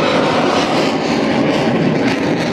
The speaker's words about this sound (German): Ich finde es interessant, um mal schauen, was da alles in der Luft rum ist, wo wir unser Geld für Kampfflugzeuge ausgeben.